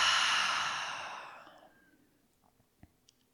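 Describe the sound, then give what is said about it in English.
A deep breath is exhaled through the open mouth in one long, airy rush that starts loud and fades over about a second and a half, followed by near silence with a few faint clicks. “So deep, full breath in through the nose. Open the mouth, exhale it out.”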